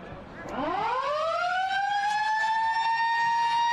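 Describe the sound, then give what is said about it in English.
A siren sounds the end of the first quarter of a football match. It sweeps up in pitch and then holds a loud, steady, sustained tone that carries to the end. “That's the siren to bring the first quarter to a conclusion.”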